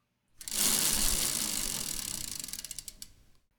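A prize wheel being spun gives a loud, fast ratcheting whir of clicks that gradually slows into separate ticks before stopping.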